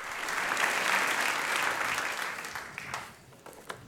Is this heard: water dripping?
no